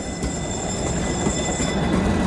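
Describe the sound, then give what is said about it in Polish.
A 105NHF tram rides on rails with a steady, loud rolling rumble and a faint high whine above it, continuous throughout with no talk. “Jakim tramwajem dzisiaj jeździłeś? Dziś 105NHF, mówi Kuba Drogoś.”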